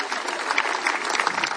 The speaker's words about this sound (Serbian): pa i to merita, teh 35 let merita vaš pljesak. Ćete se na pljeska večeras, ja vam govorim.